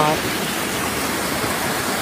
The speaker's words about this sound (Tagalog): Ngayon, ito ay may napakalakas na daloy ng tubig.